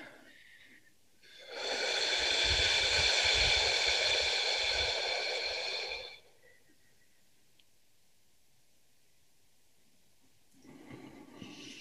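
A person breathes out deeply during a breathing exercise: one long, loud, airy exhale lasts about four seconds after a quiet start and then gives way to near silence.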